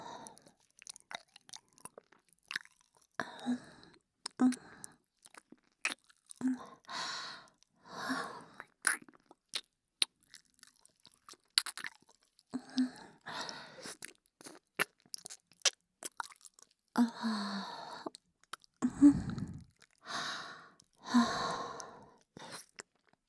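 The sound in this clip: Quiet, wet mouth chewing and nibbling, an ASMR-style pretend eating of the listener's ear, with many irregular smacks and crunchy bursts separated by short pauses, and no talk.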